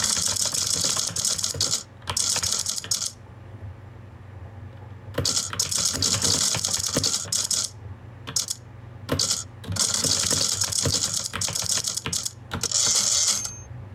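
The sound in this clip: Computer keyboard typing with the backspace and delete keys pressed: rapid, clattering keystrokes in several dense bursts separated by brief pauses, fairly loud and with no voices.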